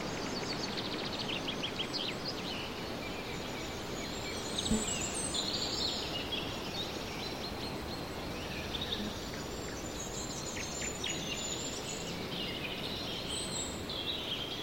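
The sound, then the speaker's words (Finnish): Northern forest ambience: a steady, soft rushing background with faint, scattered high chirps from birds that come and go throughout. “Pohjoisissa metsissä elää monenlaisia eläimiä. Sirkuttavia, inisevia ja surisevia, urahtelevia, ulvovia ja mylviviä.”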